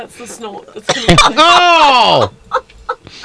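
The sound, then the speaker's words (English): A loud comic snort from a person: a long voiced, honking burst that arches up and then down in pitch, with brief throaty sounds before it and a few faint noises after. “That's the snort.”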